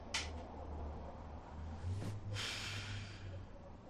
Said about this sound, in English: She picks up a jar of Vicks Vapor Rub from her nightstand, puts it to her nose, and inhales deeply.